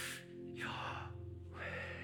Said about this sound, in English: Yahweh, Jewish scholars don't pronounce it, they breathe the name. It's an inhale,